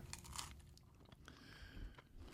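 Biting and chewing a dish that tastes like a cheeseburger, eaten plain without ketchup or pickle: faint, soft crunches and wet chewing with a few bites, no talking.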